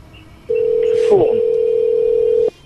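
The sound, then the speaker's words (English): A steady telephone dial tone heard while calling phone numbers holds one even pitch for about two seconds and then cuts off abruptly, with a brief noisy blip partway through. “So we've got all these phone numbers. We're trying to call them and see what they do.”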